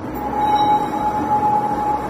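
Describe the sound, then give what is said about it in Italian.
An early-morning city tram rolls past with a loud, continuous rumble and a steady, high, thin whine running through it. “In città non canta il galletto, è il primo tram che ti sveglia nel letto.”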